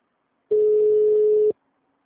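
A telephone gives a single steady ring tone of about a second, alone in silence, after a call has been transferred.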